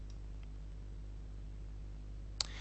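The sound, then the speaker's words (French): A single sharp mouse click on a publish button in web photo gallery software, brief and crisp near the end, over a quiet, steady low hum. “je vais cliquer sur le bouton publier”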